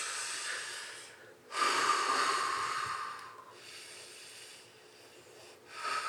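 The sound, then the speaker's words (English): Deep breathing in and out: slow, airy inhales and exhales that rise and fall in long cycles, faint and hissy, with no talk. “keep breathing in and out. All the way in, all the way out.”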